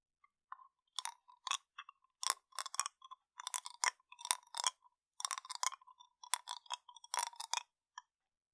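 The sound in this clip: Wet mouth sounds of a sweet candy being sucked and rolled around as it slowly melts: many short clicking, smacking bursts in uneven clusters, fairly quiet, with silence between them.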